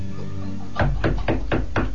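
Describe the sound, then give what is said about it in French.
Five firm knocks on a door come in a quick, even rhythm after a short quiet stretch, each a sharp, loud rap. “on tape à la porte, ça tombe bien, surtout ne bougez pas, j'y vais.”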